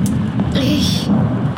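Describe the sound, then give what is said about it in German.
Rain falls with a steady hiss while low thunder rumbles underneath. The sound stays loud and continuous throughout. “Mit den ersten Regentropfen...”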